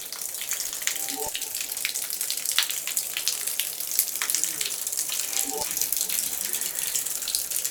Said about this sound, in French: Des écoulements d'eau.